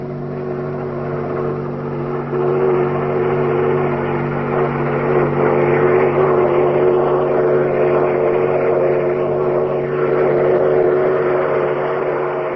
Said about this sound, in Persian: قطاری با سرعت از کنار مسافرها عبور می کند و به آنها برف می پاشد.